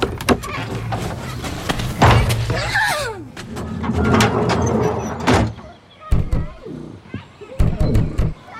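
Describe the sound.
A shed door is swung wide open, giving sliding, creaking and thudding noises that rise and fall over several seconds amid other household clatter.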